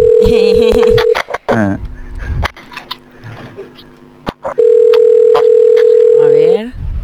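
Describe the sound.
A steady, mid-pitched telephone line tone sounds twice for about two seconds each while a call is placed to a busy line, with clicks and people talking in the gap and over the tone's edges.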